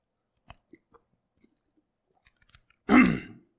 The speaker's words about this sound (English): I've got something hung in my throat. Hold on just a second.